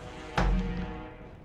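A die lands on the table during a tabletop role-playing game with a single dull thud, followed by a soft fading rumble.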